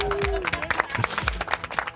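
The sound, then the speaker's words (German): Company employees applaud a colleague's recent wedding at a workplace celebration: scattered, uneven claps come in quick bursts while voices talk over and around them. “Vielleicht noch großen Applaus von allen Mitarbeitern.”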